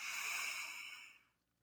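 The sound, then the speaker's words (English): A slow, deep breath taken as a mindfulness exercise: one soft, airy, hissing breath that holds steady and then fades to silence, with no talking. “by taking a breath, really following your breath in”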